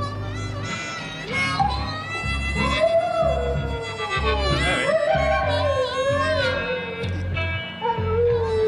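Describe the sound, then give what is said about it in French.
A dog howls along to a harmonica playing blues, its long wavering cries sliding up and down in pitch over the steady reedy harmonica tones, sustained for the whole stretch. “Alors, on croit que le chien est en train d'avoir des râles de plaisir, mais peut-être qu'il y a un peu de souffrance dans ce chant de chien.”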